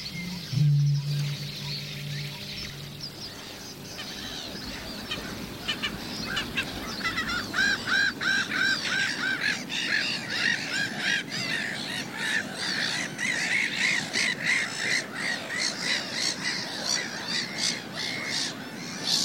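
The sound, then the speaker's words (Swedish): Black-headed gulls and terns calling: a dense chorus of harsh squawks and cries that keeps going without a break. A short low hum sounds near the start, and no one speaks. “det är mest skrattmåsar och tärnor som vi hör”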